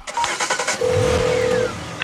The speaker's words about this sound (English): He presses the car keys into Chloe's hand, then gets into his Jaguar.